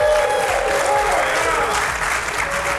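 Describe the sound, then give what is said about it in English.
A live audience at the Men of Valor Conference breaks into loud, continuous applause mixed with crowd noise, and the clapping holds a dense, even level from start to finish. “As you can hear, we have a live studio audience.”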